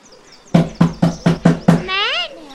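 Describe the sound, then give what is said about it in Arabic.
Knocking on a door: six loud, evenly spaced raps in quick succession, followed by a short warbling tone. “وفجأة سمع أحدا يطرق الباب.”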